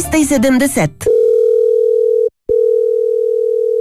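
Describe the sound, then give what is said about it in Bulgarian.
A telephone ring tone: a steady, mid-pitched electronic tone broken by one short gap, following a moment of talk. “Майка ви отново не си чува телефона.”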